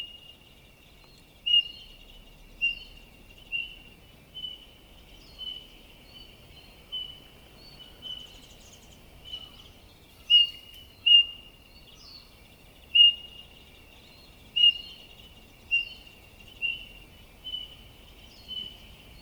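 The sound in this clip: Eurasian bullfinches call to each other in a shrine forest with soft, piping whistles. Many brief, faint notes repeat at loose intervals over a thin, steady high hum.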